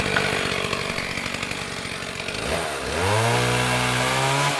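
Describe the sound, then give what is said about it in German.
A chainsaw felling trees in a forest chatters at a rough idle, then revs up into a loud, sustained high-pitched whine that holds steady to the end. “Manchmal hören wir auch dieses Geräusch im Wald. Denn wir fällen im Wald Bäume, weil wir ihr Holz nutzen.”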